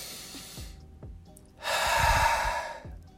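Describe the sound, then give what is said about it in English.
A deep breath taken during a guided meditation: a slow, soft inhale followed by a longer, louder, rushing exhale. “Everyone, I want you to sit and meditate and take a deep 5-second breath with me.”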